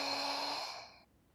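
Breathing during a medical examination: a single steady, airy breath lasting about a second that cuts off sharply, alone with no talking.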